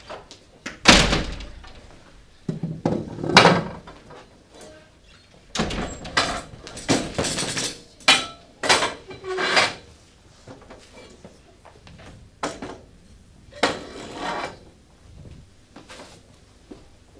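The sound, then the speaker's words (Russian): Performers on a theatre stage clear chairs beyond an outer circle and carry off musical instruments, making many irregular thumps, knocks and scrapes, some loud and sharp, separated by quieter stretches. “Артисты убирают стулья за внешний круг и уносят музыкальные инструменты.”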